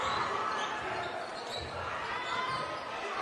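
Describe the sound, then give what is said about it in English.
Basketball dribbled during a game in the third quarter, with ball bounces partly masked by loud, steady crowd noise throughout. “Dribbling it in from the right side.”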